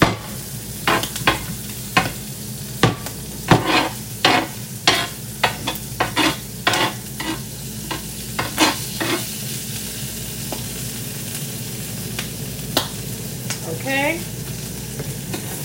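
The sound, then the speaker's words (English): Eggs frying in a pan with egg rings make a steady sizzle under many sharp knocks and scrapes during the first half, which then thin out, leaving mostly the even hiss of frying. “Here goes egg flip number two. Done. Oh, my egg yolk broke on that one.”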